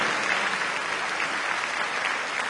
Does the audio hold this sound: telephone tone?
no